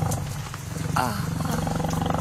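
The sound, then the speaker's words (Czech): A saber-toothed tiger roars in a circus menagerie: a single short, throaty roar rises in the middle of a dense, steady background. “A tady šavlozubý tygr.”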